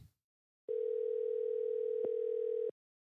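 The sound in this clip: A telephone dial tone sounds while a call is placed to a caller: a single steady, even tone holding for about two seconds with one tiny click partway through, alone without talk.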